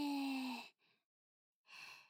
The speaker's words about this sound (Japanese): 吸って吐いて、 吸って吐いて、